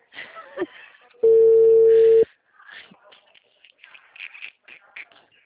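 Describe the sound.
A telephone call goes unanswered as a single steady ringing tone sounds for about a second, with people talking before and after it.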